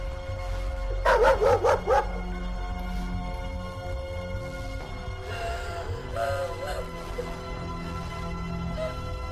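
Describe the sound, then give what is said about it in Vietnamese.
Dogs bark in a village at night, first a quick run of several sharp barks, then fainter scattered yips and whines over a low steady background. “có tiếng chó sủa từ trong xóm”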